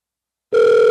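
Ringback tone of an outgoing phone call: after half a second of silence, a steady, loud, two-pitched electronic tone starts and holds to the end.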